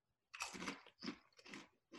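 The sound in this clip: Someone crunches a spicy chip, making a few crisp, crackling chewing crunches in quick succession, faint and with no talking.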